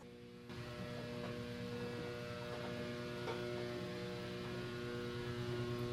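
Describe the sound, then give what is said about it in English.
A freight elevator runs with a steady, droning motor hum rich in tonal harmonics, starting abruptly after a short pause and holding an even level, broken only by a few faint clicks. “So we are naturally going into this freight elevator now.”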